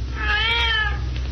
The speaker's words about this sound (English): That's one of the cats, all right.